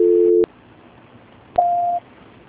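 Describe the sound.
Telephone line tones during a call transfer: a steady low tone holds, then stops abruptly, and after a pause of about a second a single higher-pitched tone sounds briefly and cuts off.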